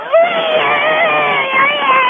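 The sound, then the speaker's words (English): A voice imitates the scream of someone being stabbed: one sustained, high, wavering cry that lasts about two seconds at steady loudness, with no other sound around it. “I can even do the scream afterwards when he gets stabbed. Oh, when he gets stabbed? Go ahead, do it.”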